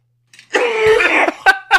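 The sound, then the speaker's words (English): A man makes a gagging cough from straining his throat with a gravelly imitation voice. One long, strained, voiced heave is followed by two short, sharp coughs, loud and with no one talking. “It straight up triggered my gag reflex somehow.”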